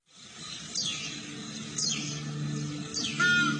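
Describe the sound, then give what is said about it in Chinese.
Bird calls of a crested ibis, a golden eagle and a blood pheasant: three sharp descending cries spaced about a second apart, the last the loudest, over a steady low hum. “这是朱鹮的声音，这是金雕的声音，这是血雉的声音。”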